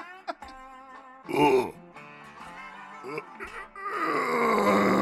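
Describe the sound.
A man groans on request, a few drawn-out, throaty voiced moans of varying loudness, with a longer, louder groan at the end; other voices can be heard around the groaning.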